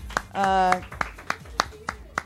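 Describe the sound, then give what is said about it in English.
Sparse hand clapping from a small audience, about eight separate slow claps in an even rhythm, with a brief exclamation from a voice near the start. “I want to have some more applause.”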